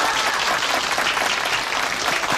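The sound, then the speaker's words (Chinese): Steady applause from a group gathered about joining a yangge dance team, a dense, even patter of many hands that holds at a fairly constant level from start to finish. “大家有没有信心？ 有， 鼓掌。”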